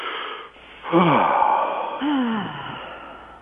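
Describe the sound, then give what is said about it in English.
A person deliberately imitates a yawn with two drawn-out, breathy, voiced sighs. Each has a wavering, bending pitch, and the pair is loud and clear with no other speech. “what you're doing is that you're actually imitating a yawn. And so when you start to make this sound, and you consciously and deliberately make yourself yawn”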